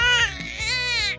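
A baby cries in a short, loud, high wailing burst that wavers in pitch.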